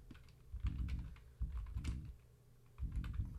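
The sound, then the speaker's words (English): Keys clack on a computer keyboard in three short bursts of rapid typing separated by brief pauses. The clicks are soft, with light thumps under them. “oh, I got to put my giant ass beer to the side so I can type”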